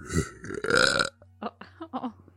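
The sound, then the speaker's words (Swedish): A person's burp, deliberately forced and coming out airy and weak: one rough, loud, throaty release lasting about a second, followed by a few fainter short sounds. “Ska avsluta med en rap.”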